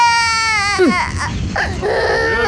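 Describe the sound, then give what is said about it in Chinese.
A young child cries loudly and without a break, in high, drawn-out wails whose pitch swoops and breaks between sobs. “别哭了”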